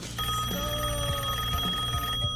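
A telephone rings on an outgoing call, a steady electronic ringing tone heard faintly and continuously, with no talk over it.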